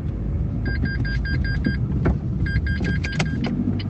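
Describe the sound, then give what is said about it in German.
Steady car-interior engine and road rumble as a car drives through a small roundabout past a large coal-blending hall on a former colliery site, broken by two runs of short, high electronic beeps. “Ich fahre durch einen kleinen Kreisverkehr vorbei an der großen Kohlemischhalle.”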